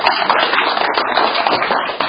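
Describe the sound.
An audience claps at a church gathering after a parent shares a testimony about a sick child. Many hands make a dense, loud patter of sharp taps that stays even throughout.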